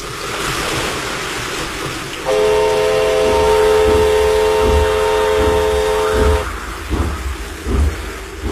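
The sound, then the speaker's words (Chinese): A train moving slowly onto a flooded track sounds a steady whistle for about four seconds. The whistle rises over constant rain and rushing water, followed by a few dull knocks as the noise continues. “火车慢慢地驶了过来，驶进了漫着水的路基。”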